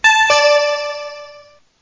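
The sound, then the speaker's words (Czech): Electronic two-note chime signalling the start of a city council vote: a bright tone is quickly joined by a lower one, and both ring out clearly and fade away over about a second and a half. “Po zvukovém signálu zahajuji hlasování.”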